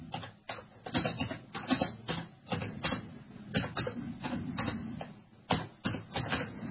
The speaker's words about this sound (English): So let me type this in real quick.